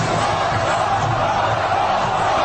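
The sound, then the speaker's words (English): Crowd cheering fills the whole stretch as one dense, steady roar of many voices, with no clear breaks or peaks. “the cheering is happening.”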